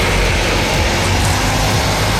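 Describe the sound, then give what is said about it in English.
Buses driving through Merseyside, a continuous low rumble of engines and road noise that stays loud and even throughout, with no voices. “Last night in Merseyside, these buses bringing 20 people back home.”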